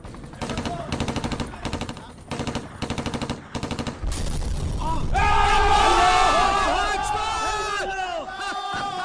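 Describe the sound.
Machine-gun fire aimed at a helicopter: several loud, rapid rhythmic bursts for about four seconds, then a continuous heavy roar with people shouting over it.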